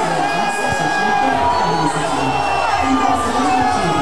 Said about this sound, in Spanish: Me sumo a la algarabía del público rancagüino, que está alegre, está contento por el cometido de O'Higgins de Rancagua